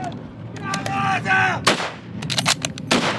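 Artillery fire pounds a trench line. Several heavy, sharp blasts and cracks land in quick, irregular succession, loud and abrupt, with a tonal rumble before the first hits.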